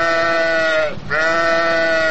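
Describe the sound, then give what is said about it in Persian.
A sheep bleats in a sustained, nasal, wavering call, loud and alone, with a brief dip in the middle before the bleat resumes. “گوسفند جان، میشه بگی که گوشتت زیاد کی میخوره و زیادتر با میدی کیها دوست رفیق هستی؟”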